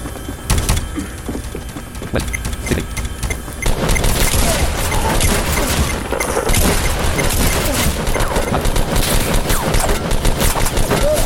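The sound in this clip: Rapid gunfire in a video game, many dense shots forming a loud fusillade, sparser at first and then thickening into sustained, continuous bursts.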